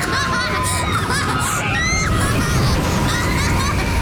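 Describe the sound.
A six-year-old rides the Tømmerstupet log flume at the Tusenfryd amusement park, amid steady rushing noise, excited children's voices and crowd babble.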